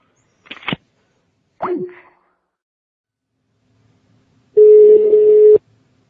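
Telephone ringing for an incoming call: a single steady electronic ring tone lasting about a second, loud and alone.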